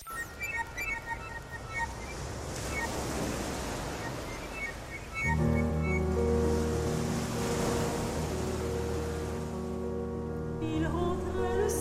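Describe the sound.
Sea waves open a classical album track of Breton songs, a broad, steady surf wash. Partway through, sustained musical tones enter and continue over the waves.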